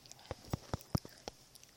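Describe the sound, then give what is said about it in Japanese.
A child crunching chinsuko biscuits: several short, crisp bites spaced irregularly, fairly faint, with no talk. “今もうね、ママに隠れてチンスコをバリバリバリバリ食べてますけどね。”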